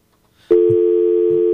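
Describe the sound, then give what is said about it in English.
A telephone rings after a brief near-silence: a loud, steady electronic tone that starts suddenly and holds unbroken to the end, with no talk. “Oh, thought we had a phone call. Try to get to it real quick.”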